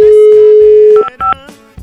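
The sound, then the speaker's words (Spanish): Telephone dialling: a steady, low dial tone held for about a second, then two short keypad beeps in quick succession, loud and alone. “Vamos a marcar. Vamos a marcar.”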